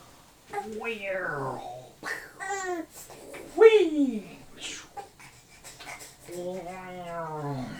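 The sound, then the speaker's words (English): A fussy baby whimpers and whines in several drawn-out, wavering vocal cries of varying length, each rising and falling in pitch, moderately loud with short pauses between them. “Hey buddy, are you getting a little fussy?”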